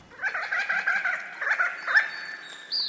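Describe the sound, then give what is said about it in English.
A resplendent quetzal calls in a rapid series of many repeated, mellow yelping notes, with a short pause partway through. A higher, thinner whistled note closes the sequence. “That's the sound of a resplendent quetzal.”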